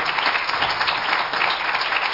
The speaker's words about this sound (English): If you believe that, give Him a hand clap of praise this morning.